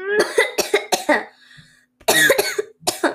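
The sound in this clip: A person with an itchy throat coughs in harsh, loud bursts: a quick cluster of a few coughs, a short pause, then another run of coughs, with no talk.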